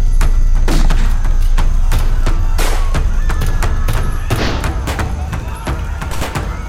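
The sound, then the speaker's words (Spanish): Chaotic gunfire rages in a battle as police open fire on a crowd of cultists. Many sharp shots and heavy thuds crowd together over a loud, continuous din. “Se libró una auténtica batalla campal y se abrió fuego, si bien muchos de los idólatras se dieron a la fuga.”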